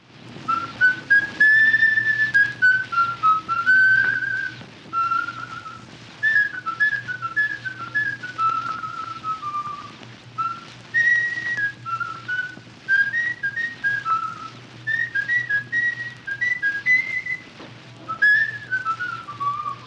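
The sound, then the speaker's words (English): A jazz musician whistles a solo melody in the style of an early New Orleans cornetist, in short lilting phrases with bent and sliding notes and brief pauses between them, heard alone. “he provided us with a recording with him whistling in the style of supposedly how”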